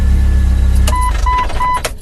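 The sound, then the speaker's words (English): Engine of a 1999 Jeep TJ, run with the ignition key after an ignition cylinder reinstall. A loud, low rumble cuts off within the first second, followed by three short, evenly spaced electronic beeps. “Key in. Key forward. Brake. Clutch. Life. It works.”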